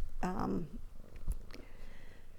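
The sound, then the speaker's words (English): A kitten roaming across a desk gives a brief harmonic cry, followed by a soft knock and faint rustling, with no talk over it. “because our Miss Ivory is walking around and knocking everything off the desk. She hasn't quite learned all the boundaries yet.”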